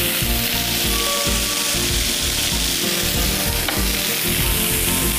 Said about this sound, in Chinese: 都在这个锅前面那块炒，所以这样呢，我们稍微炒一炒，就可以把它翻一翻。